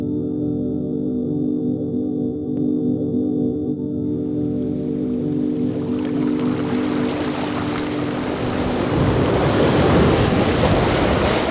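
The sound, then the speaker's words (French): Sea waves and tide washing an island shore, starting under a sustained tonal hum that fades as the surf swells into a loud, continuous rushing wash. “Bercés par la marée et le ruban bleu de la mer, vous voici projetés dans le paysage sonore de l'île.”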